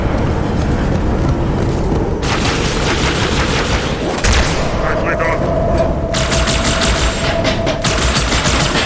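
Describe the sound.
Video game gunfire: two long bursts of rapid automatic shots, dense and loud, separated by a short gap, over a constant roar of game noise.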